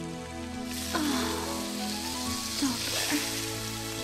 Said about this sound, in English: Now he puts two strips of bacon, raw bacon down.